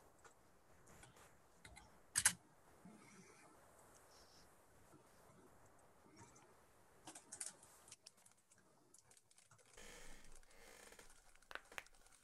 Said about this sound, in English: You want us to call them out or type them in? Uh, oh, type them in. Type them in.